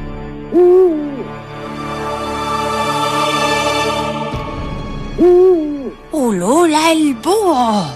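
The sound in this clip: An owl hoots over a sustained tonal drone: a single hoot at the start, another later, then a quick run of several wavering hoots toward the end, all loud and clear.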